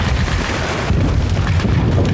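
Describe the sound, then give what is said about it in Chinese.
Artillery bombardment explosions make a loud, continuous low rumble of heavy, overlapping booms with no clear gaps between blasts and no voices. “报告司令官，炮击进攻时间到了。 命令部队进攻。”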